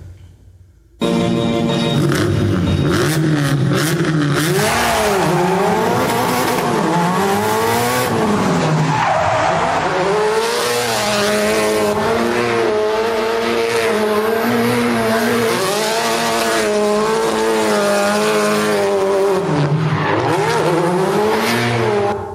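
A car driving fast, its engine revving up and down in pitch with squealing tires, loud and steady after a brief silence at the start.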